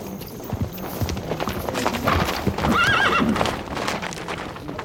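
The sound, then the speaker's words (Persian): Hooves pound as several horses gallop past with their riders hurrying on a dusty open plain, a rapid, continuous clip-clop. Partway through, a horse gives a loud whinny. “شمر با عده سوار با شتاب از کنار هر گذشت”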